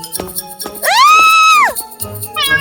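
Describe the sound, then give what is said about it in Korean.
A cat meowing as it jumps out of a box in a fairy tale: one long, drawn-out meow that rises and then falls, followed by the start of a second, shorter meow. “상자를 열자 귀여운 고양이가 뛰어나왔죠”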